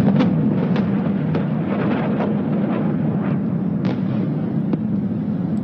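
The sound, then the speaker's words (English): Explosions from Iranian missile strikes on Tel Aviv during an air raid: a steady low rumbling roar with a few sharp, bursting cracks scattered through it, and no voices. “Air raid sirens are sounding across Israel as missiles are fired by Iran. Plumes of smoke are visible in Tel Aviv. This is what it sounds like in the city.”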